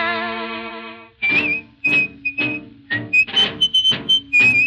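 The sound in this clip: A man whistles a jaunty little refrain in a bistro, the thin, high melody coming in short phrases over instrumental backing that opens with a sustained chord.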